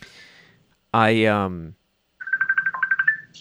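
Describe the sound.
A telephone rings with a rapid, trilling electronic tone made of many quick, high-pitched pulses. The phone keeps ringing and won't stop.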